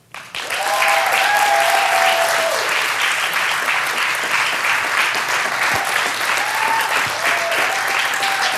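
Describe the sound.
A church audience applauds a guest pastor from India. The clapping starts abruptly and swells into dense, loud, continuous applause that holds steady to the end.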